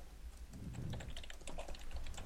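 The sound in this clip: Quiet typing on a keyboard during a quiz game, with many faint, soft key clicks in an irregular patter over a low background hum.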